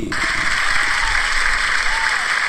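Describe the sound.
An audience applauds to welcome a guest onto a show, with loud, dense, even clapping that holds steady throughout.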